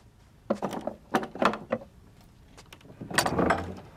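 A locked door is unlocked and opened, with several sharp clacks and wooden thunks from the lock and handle, then a longer, rougher sound toward the end.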